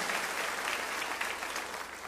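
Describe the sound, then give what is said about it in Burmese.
A church audience claps their hands in praise, giving dense, steady applause that stays at an even loudness from start to finish with no talk over it. “ဟာလေလုယာလက်ခုပ်တီးတဲ့အာဘဖခင်ကိုချီးမွမ်းကြရအောင်အာမင်”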